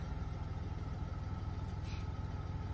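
An old antique car's engine runs at a faint, steady idle, a continuous low rumble with an even throb and no talk.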